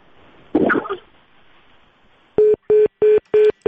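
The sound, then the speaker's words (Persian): Phone line tone after a dropped call to a doctor: a short rustling thump, a pause, then a run of evenly spaced, identical mid-pitched beeps. “متاسفانه اینطور معلوم میشه که تماس ما با دکتر صیب یوسفزی قطع شده.”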